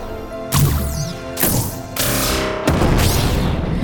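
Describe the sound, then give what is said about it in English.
Science-fiction starship weapons fire striking the aft shield generators: four loud booming impacts in quick succession, with swooping high whines sweeping over the blasts. “firing at our aft shield generators!”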